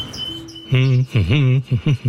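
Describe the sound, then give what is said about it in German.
Birds call in an aviary: thin high chirps at first, then a few short bursts of louder, lower warbling calls that bend up and down in pitch. “Und man hat den Eindruck, dass auch der Vögel das Herz aufgegangen ist. Statt bewegungslos in der Voliere zu sitzen, wird jetzt geschafft, geflogen und gesungen.”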